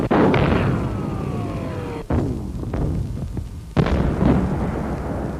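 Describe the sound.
Artillery shelling in wartime: a few heavy, booming blasts with sharp onsets and rumbling tails, one preceded by a falling whistle, with no voices.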